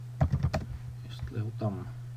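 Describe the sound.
Computer mouse clicks, a quick run of several sharp taps followed by a short stretch of low voice, all over a steady low hum.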